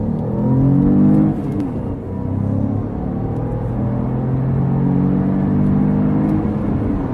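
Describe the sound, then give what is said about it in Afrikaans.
A car with an 81 kW 1.2-litre turbocharged three-cylinder engine accelerates, giving a loud, steady, low harmonic engine drone with a stronger surge in the first second. “sy 81 kW 1.2 turbo 3-silinder trek nogal heel sterk met 205 Nm wrinkrag beskikbaar”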